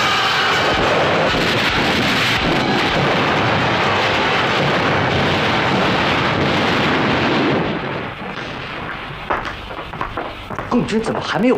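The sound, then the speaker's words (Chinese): Sustained artillery fire in a battle scene as infantry begins a charge. A dense, loud rumbling barrage of booms runs without clear gaps, easing near the end, where shouting voices come through. “炮兵延伸射击了”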